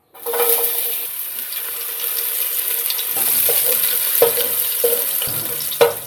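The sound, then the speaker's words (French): Onions sizzle in oil in a heated pot, a steady bright hiss that runs throughout, broken by a few sharp clicks of stirring near the end. “Je mets 2 cuillères d'huile. Je laisse bien ma marmite bien chauffer. Je vais partager mes oignons.”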